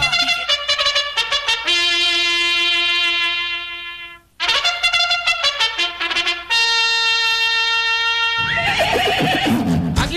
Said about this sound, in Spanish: Estos son las yeguas que van a participar. Las yeguas que van a participar en la última carrera de este año.